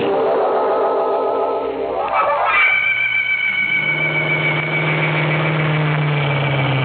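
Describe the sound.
Truck engine of a big silver van driven at night, a steady low rumbling drone with a vibrating hum that holds evenly throughout, with no talk over it.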